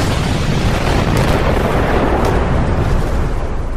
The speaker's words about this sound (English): It was Governor Chris Christie exploding.